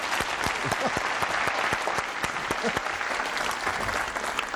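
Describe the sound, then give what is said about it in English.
The studio audience of The 700 Club applauds to welcome a guest, a dense, steady burst of loud clapping that holds at an even level throughout. “Would you please welcome to the 700 Club? Let's find out why he did it, Marlon Johnson.”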